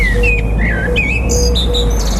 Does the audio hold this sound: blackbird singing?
yes